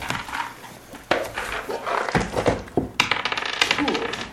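A d20 die rolls on a table during a tabletop role-playing game, making many rapid clicks and rattles. The clatter keeps going in uneven bursts for several seconds.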